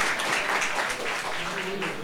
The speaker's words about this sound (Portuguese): Pode aplaudir a Jesus, pode aplaudir a Jesus, pode se assentar.